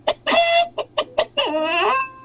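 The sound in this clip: A person imitates a chicken clucking, voicing a quick series of short, bright clucks broken by two longer, drawn-out calls, fairly loud and with no other talk around it.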